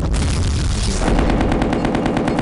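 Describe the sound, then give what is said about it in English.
Machine-gun fire in a video game, a loud sustained burst whose rounds settle into a rapid, evenly spaced rhythm after a dense opening blast. “We're going to try to get rid of the mobile artillery with a couple of cruise missiles. And if it works, great. If it doesn't, machine gun.”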